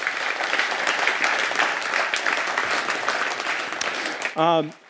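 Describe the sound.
Crowd applause welcoming a pastor to the stage, a full, even roll of clapping that carries steadily, with a brief voice rising over it near the end.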